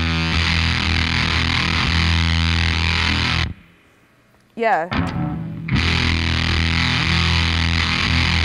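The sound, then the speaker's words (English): Heavily distorted electric guitar, bassy and darker than a Maverick Dorado, rings out in thick sustained chords, breaks off into a brief quiet gap with a few sliding squealing notes, then returns at full force; a voice briefly speaks. “You can hear it's a lot more bassy, a lot darker than the other guitar.”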